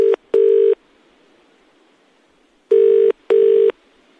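A telephone rings for a call to an office, a loud electronic tone in two double rings: two short bursts, a long pause, then two more.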